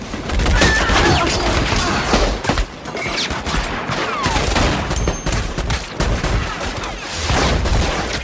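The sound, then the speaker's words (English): Heavy gunfire as a whole group opens fire at once in a film shootout. A dense, loud fusillade of overlapping shots rattles on for about eight seconds, dipping briefly partway through before surging again. “And they all open fire.”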